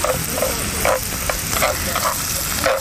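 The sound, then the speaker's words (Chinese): Carrots stir-frying in a pan for a spring roll filling, giving a dense, steady sizzle with a few brief scraping stir strokes rising above it; no one speaks. “对，先要下红萝卜炒。”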